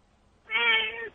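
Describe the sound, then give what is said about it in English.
A house cat meows once, a single clear, fairly loud tonal call lasting just over half a second, its pitch dipping slightly at the end, heard alone against faint background noise. “Wait, what was that, man? Is that your cat? Yeah, she wants to talk.”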